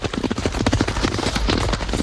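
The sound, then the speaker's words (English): Two horses gallop past on a racetrack, their hooves drumming in a rapid, uneven rhythm that builds into a steady rumble. “As Channing comes over to Stripes, two horses gallop past.”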